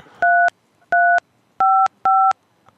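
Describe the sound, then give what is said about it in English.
Touch-tone telephone keypad dialing into an automated messaging system's directory, four loud, clean two-note beeps of equal length spaced at a steady pace, with quiet between them and no voices. “Can you press dial G O O D E L L or not?”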